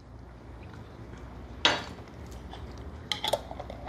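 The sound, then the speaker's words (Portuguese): Metal utensil clattering in a bowl while a mixed feeding of wet and dry pet food is prepared. One sharp clang is followed by a few lighter clinks and taps over a faint steady background. “Agora eu vou fazer um mix feeding para o Bartô. Bartô? E agora um mix feeding para o Bruno.”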